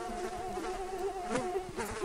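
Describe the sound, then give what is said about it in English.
Mosquitoes buzzing after a plane set down on a gravel strip in a mountain valley: a steady droning whine that holds one pitch for the whole clip, fairly loud, with no talk. “Then the mosquitoes came.”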